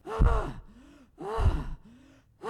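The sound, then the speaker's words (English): A voice imitates the ragged gasping breath of an exhausted person struggling through deep snow at altitude: two loud, strained gasps, each trailing into a softer voiced exhale, with a third gasp starting at the end. “I would take about three steps, and I would breathe just like this. I'd go,”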